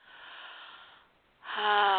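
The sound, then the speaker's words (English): A slow, airy breath drawn in during a guided sound meditation, then a fuller, louder exhale that carries a steady voiced tone, with no words spoken. “Take one more breath and let go.”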